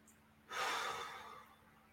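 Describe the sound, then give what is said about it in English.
A deep breath drawn in during a guided self-compassion meditation: a broad, airy rush that starts abruptly, swells, then slowly fades. It is heard alone, without talk. “Put your hand on your heart and just take a deep breath.”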